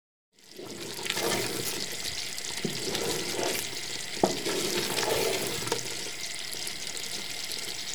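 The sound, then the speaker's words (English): A condensed milk mixture is stirred in a pan, giving a continuous sizzling, bubbling hiss with soft scraping and a few faint clicks. “So I'm stirring it because when you add the condensed milk, it tends to catch the bottom of the pan”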